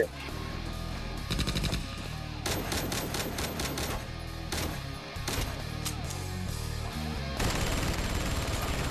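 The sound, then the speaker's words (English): Automatic gunfire from a Heckler & Koch MP5A3 submachine gun comes as rapid, sharp bursts over a loud, steady, dense background that fills the whole stretch. “Kicked off with the Heckler & Koch MP5A3 submachine gun, and then switched to the Chinese-made QBZ-97B.”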